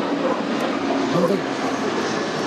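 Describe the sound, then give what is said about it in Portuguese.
Steady, loud roar of an airplane flying low over the area near Guarulhos airport, a broad continuous rumble that holds level for the whole stretch without breaks. “Tá vendo? Paramos de conversar porque nós temos um avião.”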